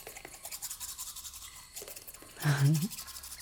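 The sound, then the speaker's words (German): A black toothbrush scrubbing teeth, with soft, rapid bristle scratching in a steady rhythm. A brief voiced sound rises over the brushing near the end. “Das ist übrigens eine ganz besondere Zahnbürste, die schwarze.”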